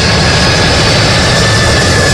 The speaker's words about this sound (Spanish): Este es el avión más grande de la Fuerza Aérea de Estados Unidos